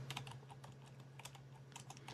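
Rapid typing on a computer keyboard, with many quick, sharp key clicks in an uneven rhythm over a faint steady low hum.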